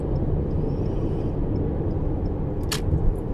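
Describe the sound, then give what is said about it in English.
A car drives at a slow, sedate pace, making a steady low road rumble and engine drone that holds even throughout. A brief higher hiss rises near the end, and no voices are present. “As I drive at a sedate pace. Conscious of my speed, conscious of my actions.”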